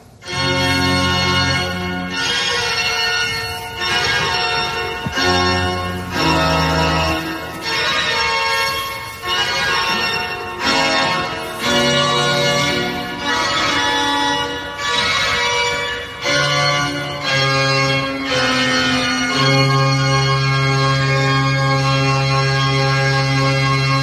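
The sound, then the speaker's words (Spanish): Pipe organ at Orbita sounding in loud, sustained chords with shifting notes and rich, bright harmonics, ending on a long held low note. “Ahora vamos a dar paso a que suene el órgano de aquí, de Orbita.”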